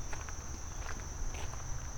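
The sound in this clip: Soft footsteps on a walk around a dragonfly pond with frogs, a few faint scuffing steps beneath a steady, high insect whine and a low background hum.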